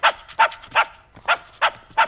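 A dog barks six times in sharp, evenly spaced bursts, with a short gap midway through.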